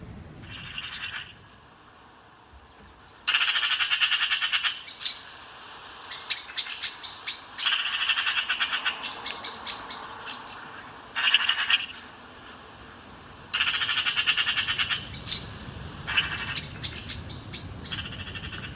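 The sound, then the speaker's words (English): Blackbird alarm calls, several bursts of rapid high-pitched chattering separated by short quiet gaps, with no voices. “The one that's sounding really alarmed is a blackbird”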